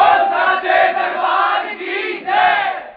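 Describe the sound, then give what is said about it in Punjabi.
A crowd at a devotional gathering shouts a Jaikara chant to the goddess: loud, sustained massed voices roar together, dip slightly, then swell again near the end. “ਇੱਕ ਵਾਰ ਜ਼ੋਰਦਾਰ ਜੈਕਾਰੇ ਨਾਲ ਇਜਾਜ਼ਤ ਦਿਓ ਜੈਕਾਰਾ ਉੱਚੇ ਭਵਨਾਂ ਵਾਲੀ ਦਾ”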